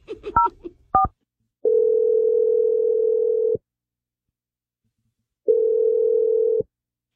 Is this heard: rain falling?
no

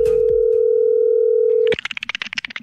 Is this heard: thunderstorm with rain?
no

